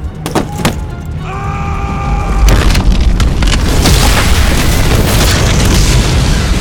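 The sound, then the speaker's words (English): A few sharp pops and a brief ringing tone lead into a heavy boom as plastic explosive blasts a hole in a tent roof, the loud blast rolling straight into a sustained, roaring rumble. “Chen's first pack of plastique bounced off the flat, springy surface of the tent roof. It blasted a 10-foot-wide hole in the material, and the second pack dropped in.”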